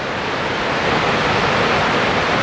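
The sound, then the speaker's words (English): Roar of a waterfall plunging a hundred meters into a churning torrent at high water, spray blowing on a winter day; a dense, unbroken rushing noise, loud and constant, with no voices. “a 100-meter drop into a churning torrent below.”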